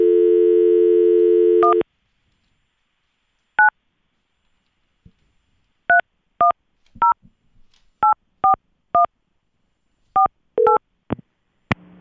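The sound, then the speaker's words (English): A telephone number being dialed: a steady dial tone stops, then many short, clear two-pitched touch-tone beeps follow one by one at uneven intervals against silence. “let's dial him up”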